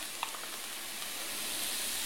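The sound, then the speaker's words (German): Vegetable broth sizzling in a frying pan, making a soft, steady hiss with a few faint crackles early on. “Ich mache jetzt direkt in die Pfanne ein bisschen Gemüsebrühe rein.”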